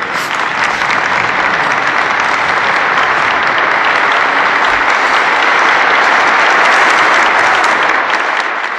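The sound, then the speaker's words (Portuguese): Theatre audience on its feet for a standing ovation at a tribute event, giving dense, sustained applause that stays loud and even throughout with no talking over it. “Meus senhores e minhas senhoras, de pé, uma salva de palmas a João Vilarês.”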